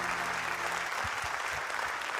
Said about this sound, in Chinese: 谢谢，感谢大家默默的掌声